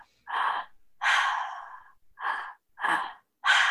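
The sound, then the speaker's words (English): Breathing in a two-step pattern: an inhale into the belly, then into the chest, then an exhale through the mouth. Five loud, breathy bursts are separated by short silences, the second the longest, with no talk. “The first step is you breathe into the belly and the belly expands. And then you breathe into the chest, and then you exhale out of the mouth.”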